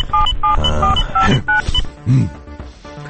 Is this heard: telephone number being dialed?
yes